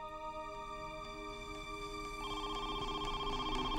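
A telephone ringing: partway through, a faint electronic trilling ring enters over steady sustained tones, and the sound stays quiet throughout.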